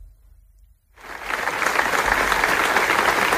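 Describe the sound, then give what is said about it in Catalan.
Applause from a crowd at a memorial gathering for a murder victim in Manresa begins after a near-silent second, then swells into steady, dense clapping that continues to the end. “I aquest és el so d'una de les tres concentracions que hi ha hagut de record a la víctima, en Carles, en les darreres 24 hores a Manresa.”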